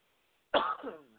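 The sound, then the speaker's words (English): A single cough from someone with allergies bursts out suddenly after silence, harsh and throaty at first, then tapering off quickly with no talk around it. “oh yeah, by the way, that clears the fucking path sometimes. It's not the coronavirus, it's allergies, cough.”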